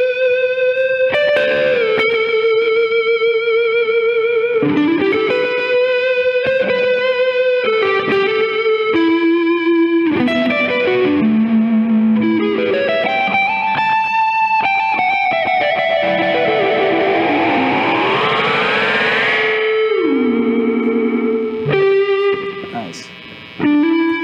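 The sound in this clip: Electric guitar runs through overdrive and a medium delay from a Boss DD5 pedal, playing distorted melodic phrases with sustained notes, bends and sliding pitch glides, each note trailing into repeating echoes. The sound cuts briefly near the end.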